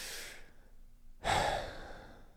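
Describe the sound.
A long, drawn-out inhaled breath, demonstrated on purpose, comes as a steady airy hiss lasting over a second. It follows a shorter breathy sound and a brief silence, with no talking.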